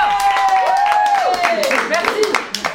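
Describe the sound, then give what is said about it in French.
Studio audience applause on a French talk show: scattered clapping running under voices that talk over it throughout. “On applaudit le public qui revient.”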